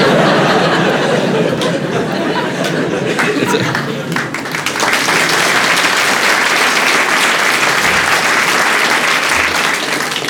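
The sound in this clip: Audience applause at a stage show in the Swiss capital: a dense, continuous wash of many hands clapping that swells fuller about halfway through and stays loud to the end.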